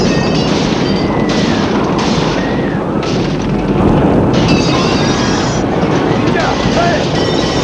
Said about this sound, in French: Le feu est dans l'allée, on entend le bruit des flammes.